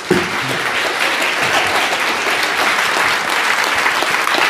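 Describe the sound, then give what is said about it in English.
Church audience applause welcoming a guest speaker, a loud, sustained wash of many hands clapping, dense and steady for the whole stretch with no pauses. “So family, will you put your hands together with me and let's welcome our crazy brother, Frank Viola.”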